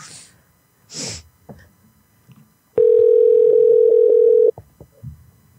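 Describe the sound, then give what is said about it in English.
A telephone dial tone sounds while a call is placed to a bookstore. The tone is loud and steady and holds for under two seconds, with faint rustles and a snort-like noise before it. “Let's call a bookstore.”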